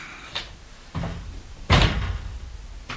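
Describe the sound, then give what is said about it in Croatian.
A window being opened: a few knocks and clatters of the frame, a louder bang in the middle, then a final light knock, with no talking. “Da otvorim prozor. Otvori.”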